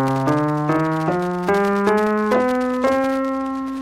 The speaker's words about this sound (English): Also, another important scale is the minor scale, and it sounds like this.